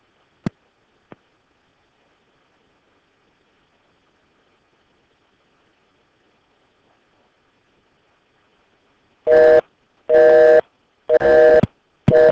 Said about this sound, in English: I think I dialed her second number earlier, so let me try that real quick.